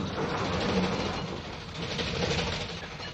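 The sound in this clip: An express train runs at speed without braking, giving a continuous, loud, dense rumble with a steady roar and no pauses or braking squeal.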